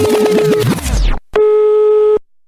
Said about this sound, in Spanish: la Q tenemos un teléfono que siempre tenemos descolgado para que todo el público piense que siempre nos están llamando.